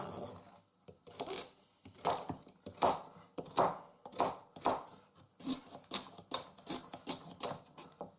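A knife chops carrots in a long run of many crisp, evenly spaced strikes. The steady rhythm stays faint throughout, with no talking.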